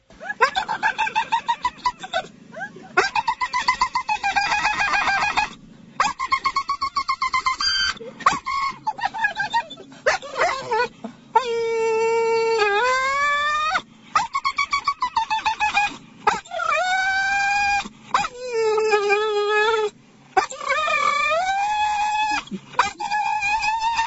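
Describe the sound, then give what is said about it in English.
A Great Dane that is afraid of squirrels whimpers and whines in loud, high-pitched, wavering cries that bend up and down in pitch, coming almost continuously with brief breaks between them. “it would have been a great segue for the sound of this dog who's afraid of squirrels.”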